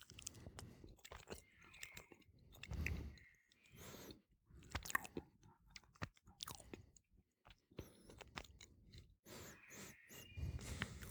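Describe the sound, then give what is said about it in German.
Appenzeller cheese being chewed during a cheese tasting: many soft, irregular crunches and moist mouth sounds come in uneven bursts, quiet, with brief pauses between bites. “Das ist ja unmöglich der Appenzeller sein. Aber ich probiere jetzt doch mal.”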